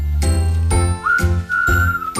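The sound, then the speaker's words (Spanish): Incoming phone call ringing during a sports call-in show: four evenly spaced, bright chime-like tones, with a steady high whistling tone sustained beneath the later rings. “Espera, que me está diciendo. Hay una llamada. ¿Quién será?”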